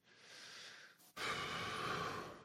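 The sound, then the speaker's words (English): Deep, slow breaths taken to calm down: two drawn-out, soft, airy breath sounds separated by a brief pause, the second louder than the first, with no talk. “Well, first, we can start with taking maybe 3 deep breaths and try to calm your voice.”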